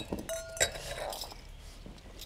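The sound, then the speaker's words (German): Wine glasses clink together as they are dried by hand. A few light, bright clinks are heard, one leaving a brief ringing tone, all fairly faint. “Bleib mal die Gläser, die brauchen wir. Lass mal gerade. Ich mach die Gläser noch trocken.”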